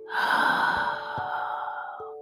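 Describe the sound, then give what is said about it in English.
A deep breath in and out, heard as one long, loud airy rush that fades slowly, with steady faint tones sustained underneath. “Let us take a deep breath in and a deep breath out.”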